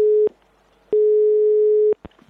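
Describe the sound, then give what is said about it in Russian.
Ringback tone of an outgoing telephone call: a steady mid-pitched tone that cuts off, then one full tone lasting about a second, with clicks at each break and a faint click after the tone ends. “С этим вопросом я сейчас позвоню моей знакомой, зоологу, ученому Соне Баскиной”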